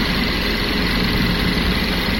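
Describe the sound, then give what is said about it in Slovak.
A sewing machine runs with a continuous mechanical whirr and low motor hum, steady and unbroken throughout. “Ty si uhádla, že je to zvuk šiaceho stroja.”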